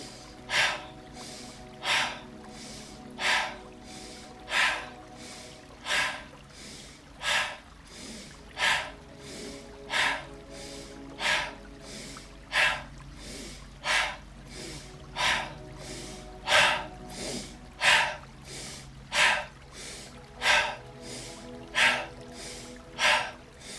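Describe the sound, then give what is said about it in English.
Rhythmic breathing exercise of forceful inhales through the nose and exhales, in steady, evenly spaced pulses of roughly one per second, many in a row, with no talking. “Take an inhale through the nose once more. You ready for it? Second round, last round on this. Exhale.”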